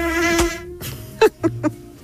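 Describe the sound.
A mosquito's thin, buzzing whine holds steady, with rich overtones, then gives way to three sharp, quick hits.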